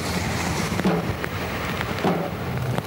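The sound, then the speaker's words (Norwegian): Steady rain falling on a silent procession through the streets of Stavanger. The rain makes an even, dense hiss with a few faint taps, and there are no voices. “En stille prosesjon i regnet i Stavanger.”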